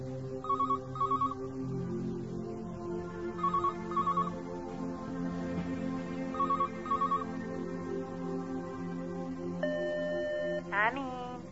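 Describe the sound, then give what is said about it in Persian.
A telephone rings and goes unanswered, sounding three evenly spaced double-ring bursts at a moderate level over a steady background hum. “نگاهی به تلفن میندازه اما جواب نمیده.”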